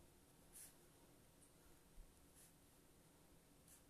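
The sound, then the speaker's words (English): Handwritten notes going down on paper, a pen giving faint scratchy strokes in a few short bursts over a quiet background. “And I'm writing these down so I know that you had time to write them down too.”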